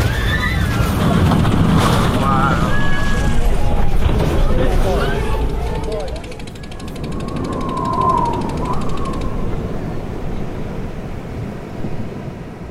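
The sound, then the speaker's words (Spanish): An airplane landing in darkness, its lights not working, gives a loud, rough rumble with whistling, whinny-like tones sliding through it. Voices sound in the mix, and the roar eases partway before swelling again. “Ese aterrizaje en plena oscuridad estuvo tremendo, ¿eh? Parece que el capitán iba a ciegas.”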